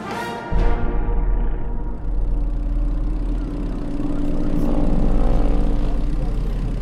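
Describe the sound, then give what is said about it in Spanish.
An aeroplane in flight drones steadily with a deep, continuous engine roar that starts abruptly and swells slightly later on, with no talking. “El aeroplano no cuenta con salida de emergencia, por lo que le solicitamos atender mis indicaciones en situaciones de pérdida de algún motor o caída libre. Bienvenido a bordo del Meridiano Fantasma.”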